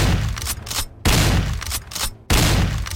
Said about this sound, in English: pulled a 12-gauge shotgun from the roof rack. Instead of aiming at the approaching creature, however, he aimed skyward and fired three deafening blasts.